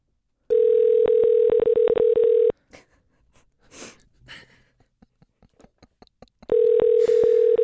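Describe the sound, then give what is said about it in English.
Ringback tone on an outgoing telephone call: two long, steady, loud rings. A quiet gap of several seconds between them holds faint breathing and rustling. The second ring begins near the end. “don't go to voicemail, Brian. Pick us up.”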